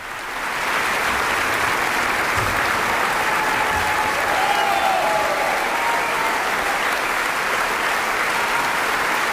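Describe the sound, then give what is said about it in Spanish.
Enthusiastic concert audience in Carinthia applauding a young pianist after a Mozart piano concerto with the Camerata Salzburg; dense, steady clapping swells in within the first second and continues loud and unbroken throughout. “Y ya escuchamos cómo el público de Carintia, entusiasmado en este concierto celebrado el pasado 2 de agosto, reclamaba al intérprete, al joven pianista Lucas Sternad,”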